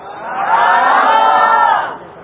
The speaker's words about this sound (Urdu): الحمدللہ عزوجل یہاں موجود جامعۃ المدینہ کے طلبہ بہت خوشی کا اظہار کر رہے ہیں